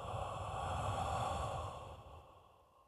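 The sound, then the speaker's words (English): A deep, slow breath, soft and airy, swelling at first and then tapering away into quiet near the end. “I want to do it one more time. Breathe in. And exhale.”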